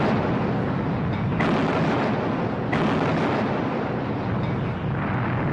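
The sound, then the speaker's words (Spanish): Naval artillery fire as a British fleet opens fire on French warships in the Second World War: a loud, dense, continuous barrage of rumbling blasts, with a couple of sharper bursts standing out, and no voices. “la flota británica abrió fuego contra sus antiguos aliados”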